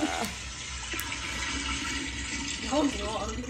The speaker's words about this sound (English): Long. Yep. Long flush.